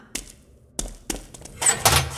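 Tapping coming from next door: a few dull, separate taps with uneven gaps, then a busier, noisier patch of softer knocks.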